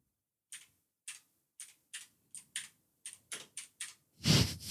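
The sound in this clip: Typing on a computer keyboard: about ten slow, separate key clicks in a loose, uneven rhythm, then a louder, heavier thud at the end.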